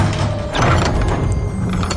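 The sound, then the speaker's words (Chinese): A wooden door is rammed and broken open: one heavy crashing burst early on, followed by dense, noisy clatter that carries on to the end. “随着房门被撞开，几个人冲了进来。”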